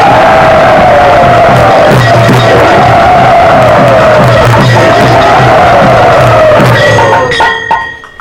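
A crowd cheers and shouts to welcome a guest and his guru at a yatra gathering, loud and unbroken throughout before easing slightly at the very end.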